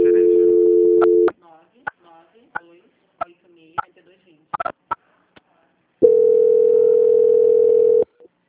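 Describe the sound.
Ringing tone on a telephone line during a call: a steady low electronic tone cuts off, several sharp clicks and faint noises follow over a few seconds of near quiet, then the same steady tone returns and holds for about two seconds.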